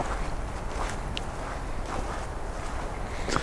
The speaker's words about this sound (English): Then I'm gonna hike in deeper here